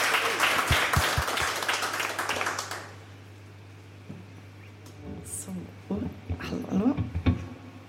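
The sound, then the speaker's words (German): Thunderous applause from a live radio studio audience, loud dense clapping for about three seconds that then drops away, followed by a voice speaking. “Also jetzt bitte nochmal einen donnernden Applaus”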